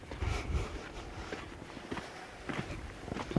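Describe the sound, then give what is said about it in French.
Faint footsteps scuffing and stepping over rocks while climbing toward a mountain pass in canyon terrain, a few irregular, soft steps with light gritty scrapes. “On grimpe des roches pour arriver au sommet de la passe, en fait.”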